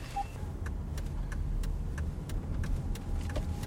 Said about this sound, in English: And now we're just driving like normal.